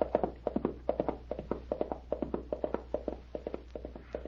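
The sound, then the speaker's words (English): Clip-clop of a ridden pony's hooves at a trot, a steady rhythmic series of hollow taps, fairly faint and heard alone with no talk. “Look at him go now. Boy, he sure is a good rider.”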